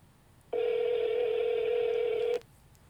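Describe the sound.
Ringback tone of an outgoing late-night phone call that goes unanswered to voicemail: one steady, unbroken electronic tone lasting nearly two seconds, heard alone over faint hiss.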